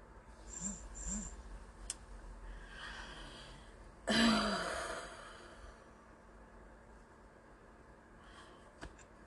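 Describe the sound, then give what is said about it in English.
A single deep breath: a broad rush of air that swells and then fades over about a second and a half, heard alone over a faint, steady low hum. “I heard a deep breath, so got it.”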